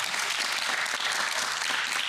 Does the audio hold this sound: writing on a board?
no